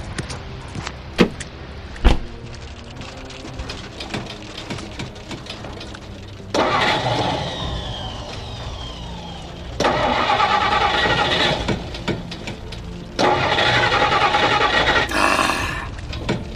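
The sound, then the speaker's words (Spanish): A truck engine cranks three times without catching: long, loud grinding bursts of starter whine separated by short pauses, after a couple of sharp clicks. “¡No hay caso! ¡El motor no parte!”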